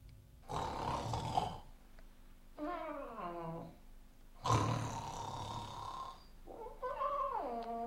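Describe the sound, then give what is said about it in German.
A voice imitating a parrot that mimics a man's snoring makes two full snore cycles, each a loud rasping breath followed by a falling, groaning whistle. “Praktisch ist ein Papagei. Bellt wie ein Hund, legt auch ein Ei. Schnarcht wie ein Mann. Hört es euch an.”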